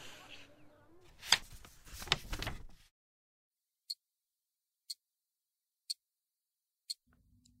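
Clock ticking: four crisp, sharp ticks spaced evenly about a second apart, faint and isolated against silence after a louder burst of noise.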